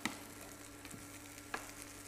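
Burger patties frying in a pan give a steady, fairly faint sizzle, broken by a couple of brief crackling pops, with no voices.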